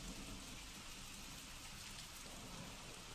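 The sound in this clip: Steady rain falls as a faint, even hiss of drops with a soft low rumble beneath, unchanging throughout and with no voices.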